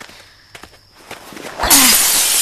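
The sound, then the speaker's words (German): A window pane smashed with an elbow: a few soft taps and shuffles, then a sudden loud crash of breaking glass that stays as a bright, sustained hiss until the end. “Ist das Fenster auf? Nein. Geh zur Seite, ich schlag es mit dem Ellenbogen ein.”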